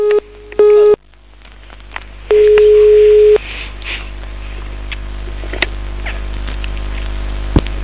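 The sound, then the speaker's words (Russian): A telephone tone after a disconnected call sounds as a few steady beeps of one pitch, uneven in length, the last lasting about a second, then gives way to a low line hum with faint clicks. “Алло, нас что-то разъединили.”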